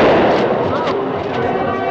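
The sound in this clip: Rooftop festival crowd at night during the Basant kite festival in Rawalpindi, with firecrackers and horns: a dense, loud, continuous wash of crackling bangs and noise, with steady tonal notes and voices mixed in throughout.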